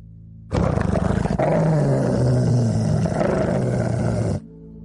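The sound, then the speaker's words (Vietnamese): A dog gives a deep, loud growl: one sustained, rumbling roar lasting about four seconds, heard alone with no voices. “Tiếng của con chó âm làm cho Bạch Thế Bảo giật mình tỉnh giấc.”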